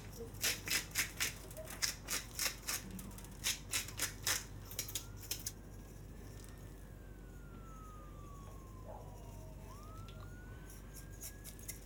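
Pepper being added while cooking, heard as many quick, evenly spaced scratchy bursts like a grinder being cranked, stopping about halfway; afterward a faint gliding wail rises and falls over a low hum.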